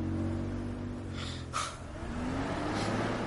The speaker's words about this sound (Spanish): Walter Jr. arranca el coche y da marcha atrás. Walt baja la mirada. La levanta y observa el coche de Walter Jr. alejarse.